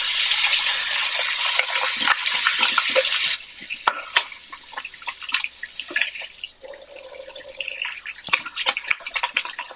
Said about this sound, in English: Wash my hands off real quick, y'all. I got peanut butter on them.